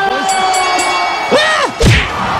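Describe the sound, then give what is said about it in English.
A boxing knockout punch lands as a heavy, dull thud amid shouting voices and loud crowd cheering. “Wow, that's the fastest knockout in boxing history. The crowd goes wild.”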